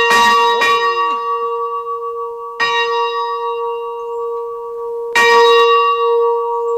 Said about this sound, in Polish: Już chyba nierówno go rozkołysałem, bo ciągle z jednej strony uderza. Tu widzę w ogóle jest po polsku i po czesku, tak? Na tym dzwonie.